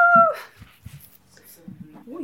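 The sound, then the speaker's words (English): An American Bully puppy whimpers. It starts with a high, thin whine, followed by a few short, soft yips and snuffles, with voices heard alongside. “What kind of pup is it again? American Bully.”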